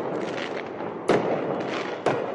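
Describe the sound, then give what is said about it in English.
Fireworks set off by a crowd of protesters in a city street pop in two sharp, loud bursts about a second apart, over a steady murmuring background of crowd noise. “Some in the crowd last night set off fireworks.”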